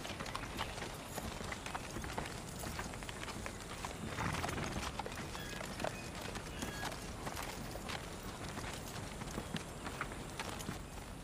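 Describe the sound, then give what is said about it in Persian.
Hoofbeats of a ridden horse, many quick clip-clops in a steady run over a constant, noisy background, fairly faint throughout. “خانم، یه سوار داره میاد.”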